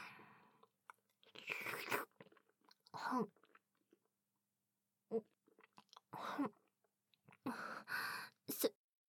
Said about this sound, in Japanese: このフォークを使って食べればよいのでしょうか。